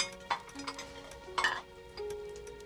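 Faint clinks and light knocks as bowls are carried in and set down near a stoked fire, a few brief separate taps over a quiet background hum.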